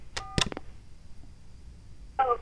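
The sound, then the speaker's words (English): Telephone keypad tone from pressing 4 in an automated phone menu: a short electronic beep and a sharp key click near the start, followed by a quiet line. “For important dates and deadlines, dial 4. You may press star at any time to return to a previous menu. Oh, let's go with 4.”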